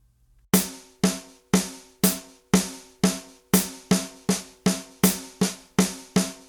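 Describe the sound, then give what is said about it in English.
A drum plays a rhythm of two eighth-note triplets followed by two sets of sixteenth notes: six evenly spaced strokes, then a quicker run of strokes. Each hit is sharp, with a short ringing decay. “We're going to play two instances of eighth note triplets and then two sets of”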